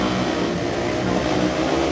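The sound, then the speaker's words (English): Demolition derby cars rev their engines at the Coshocton County Fair, a loud, dense, continuous engine roar with no break. “Rough truck contest. And demolition derby.”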